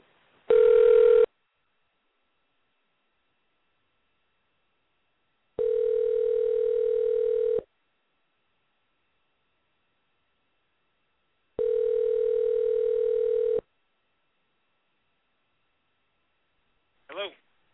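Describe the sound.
Ringback tone of an outgoing telephone call being dialed and ringing out: steady buzzing bursts of about two seconds repeat with long silent gaps between them, ending in a brief click, with no voices.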